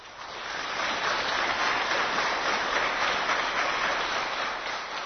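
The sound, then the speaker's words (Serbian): Applause for veterans of the battle of Košare at a book promotion: dense, steady clapping that swells in at the start and holds evenly before easing slightly at the end. “Promocije knjige prisustvovali su i borci sa Košara, koji su pozdravljeni aplauzom.”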